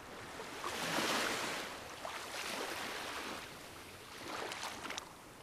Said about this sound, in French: Je m'en remets à l'océan, au tumulte des vagues, à la joie des éléments.